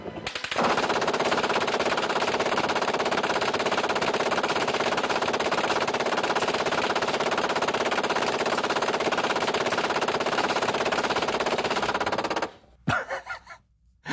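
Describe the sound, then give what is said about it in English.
An M240 machine gun fires one sustained burst of rapid shots for about twelve seconds. The fire is loud and unbroken, then stops abruptly and leaves a few faint scattered sounds. “Here is a guy shooting an M240 machine gun. The gunner will fire 10 seconds or 130 rounds.”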